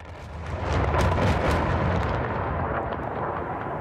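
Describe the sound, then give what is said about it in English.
Bombs explode over the city of Aleppo in a loud, deep, continuous roar that swells within the first second and holds steady, with no separate blasts standing out. “two bombs falling through the sky, then hitting the city. Two more hit nearby.”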